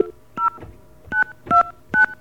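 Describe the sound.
Touch-tone keypad beeps from a telephone being dialed, four short dual-pitch tones spaced apart with quiet gaps between them, clear and with no talk.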